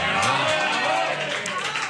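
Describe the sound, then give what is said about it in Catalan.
Applause from a group, a dense and steady patter of many hands clapping for about two seconds that eases off slightly toward the end. “Aplaudint el ric, eh?”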